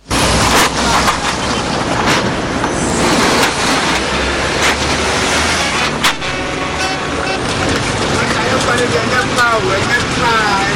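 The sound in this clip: Vehicles rumble along a pothole-riddled road in Ghana, with a dense engine and road roar. A few sharp knocks and rattles break through the constant noise as wheels hit the holes.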